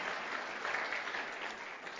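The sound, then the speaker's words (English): A church audience applauds online viewers with a steady, even wash of many hands clapping, unbroken from start to finish and without voices. “Perhaps you can give a hand to all those watching on the screen. Let's give them a hand for joining with us.”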